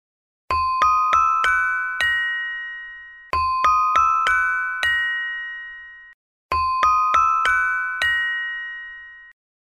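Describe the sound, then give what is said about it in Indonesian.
A saron, a gamelan metallophone, is struck in three identical phrases of five quick bright metallic strikes. The last note of each phrase rings on clearly, and silent gaps separate the phrases. “Kalau saron, bunyinya seperti ini.”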